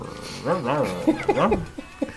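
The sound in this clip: A person imitates a dog barking, voicing several short yelping barks with arching, rising and falling pitch, fairly loud over a steady background hiss.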